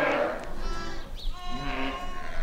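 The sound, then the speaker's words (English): Sheep bleating in a barn during lambing season, several drawn-out, wavering bleats overlapping one another above a steady low background hum. “It's lambing season, and if you have an awful lot of sheep, you have an awful lot of lambs born, sometimes 200 or 300 in a 24-hour period at the peak of it.”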